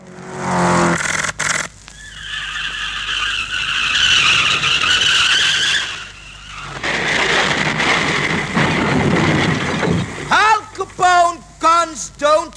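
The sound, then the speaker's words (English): Squealing tyres and car noise open a 1964 song: two long, loud skidding screeches follow a short burst at the start, and voices come in near the end. “a song that starts off with the sound of a car crash, gunfire, and squealing tyres”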